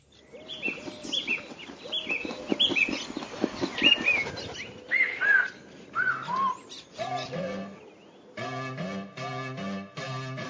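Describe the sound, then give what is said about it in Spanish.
A synthesized cello imitating a whistling bird song: quick, high chirping whistles come first, then give way to sustained, steady cello-like tones. “el bajo inicial, el cello, lo sintetiza y lo utiliza como el silbido de un pájaro, porque al inicio el canto del pájaro que estaba silbando poco a poco se convierte en el chelo.”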